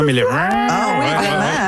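A cow-like moo is used as a sound effect for a cat. One drawn-out, low, harmonic call wavers up and down in pitch and lasts under two seconds.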